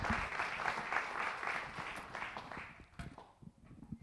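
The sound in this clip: An audience gives warm applause to welcome a speaker. Dense clapping fades after about three seconds into a few scattered claps.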